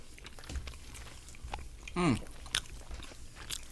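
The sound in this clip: Biting and chewing a heavy, very cheesy, salty pizza slice: soft, wet chewing runs throughout, with a few sharper crunchy bites and a brief low hum from the eater partway through. No words are spoken.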